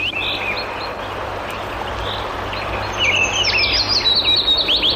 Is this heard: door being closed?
no

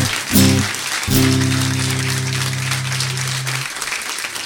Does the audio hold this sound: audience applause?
yes

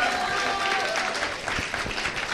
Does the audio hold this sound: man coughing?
no

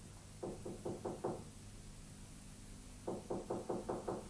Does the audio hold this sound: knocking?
yes

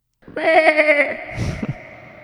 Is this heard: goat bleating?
yes

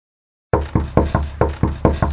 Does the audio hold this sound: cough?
no

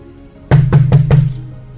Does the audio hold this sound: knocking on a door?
yes

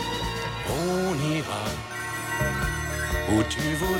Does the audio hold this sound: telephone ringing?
yes

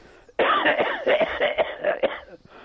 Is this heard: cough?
yes

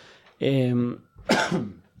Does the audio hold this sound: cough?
yes

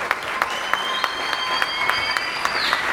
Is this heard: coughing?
no

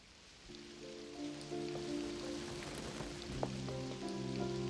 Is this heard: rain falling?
yes

